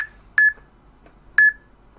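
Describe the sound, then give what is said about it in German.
Electronic beeping from a device held over a bottle while searching for its expiry date: two short, bright, high-pitched beeps about a second apart, clear against near silence. “So, jetzt wird das Piepen schon mal ein bisschen flotter. Noch schneller.”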